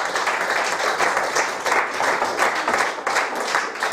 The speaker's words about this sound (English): Ladies and gentlemen, please put your hands together.